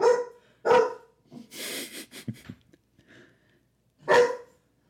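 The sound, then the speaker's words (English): Three sharp barks from a big puppy weighing about 70 pounds: two loud barks close together at the start, then a single bark after a longer pause. “is she actually barking at something? Who knows? She's a goofy bitch. It's our puppy.”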